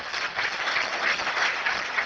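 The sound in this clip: Audience applause at a talk honouring New Zealand open-source and government web projects, a steady, moderately loud patter of many hands that holds evenly throughout.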